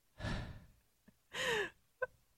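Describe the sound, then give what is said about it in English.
Deep breathing: a slow noisy inhale followed by a longer, slightly voiced exhale like a sigh, faint and with no talk, plus a couple of small clicks. “breathe in, breathe out”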